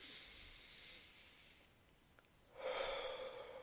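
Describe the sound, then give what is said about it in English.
A deep breath drawn in through the nose and let out through the mouth, soft and airy, with a faint inhale followed after a pause by a louder, rushing exhale. “I need to take a deep breath again, everyone, let's do it together.”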